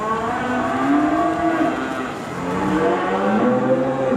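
Cattle and calves moo in a new open barn on a farm in Virginia. Deep, drawn-out lowing calls overlap and carry on almost without a break, with a short lull midway. No voices are heard.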